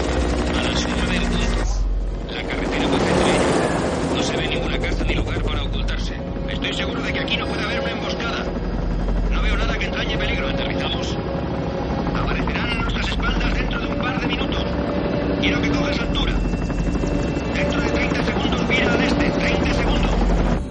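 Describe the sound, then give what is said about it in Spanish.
Helicopter flying over an area of high-voltage power towers, a loud, steady rotor and engine roar that holds for about twenty seconds, with voices heard over it at times. “El helicóptero se desvía para inspeccionar la zona.”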